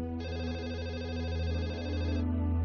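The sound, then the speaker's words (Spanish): A telephone ringing: a loud, continuous warbling electronic trill of about two seconds over a low steady hum, ending abruptly. “Y a las 6:30, tal y como esperaba, sonó el teléfono.”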